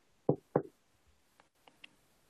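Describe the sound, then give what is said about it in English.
Two firm, loud knocks on a door, followed by a few faint, scattered taps. “there is a knock at your door.”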